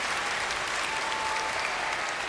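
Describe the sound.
Applause from an audience for two children aged nine and ten: a fairly soft, continuous patter of many hands clapping, steady from start to finish with no pauses or standout voices.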